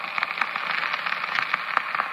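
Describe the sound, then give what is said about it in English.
Radio static hisses steadily: a continuous, fairly quiet wash of noise dotted with small irregular crackles and pops, with no voices. “When we got back to our bunks, the radio returned to static.”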